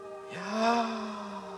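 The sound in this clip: A voice imitates a divine name with one long, breathy, voiced breath through the nose, lasting over a second and swelling in the middle before tapering off, heard alone.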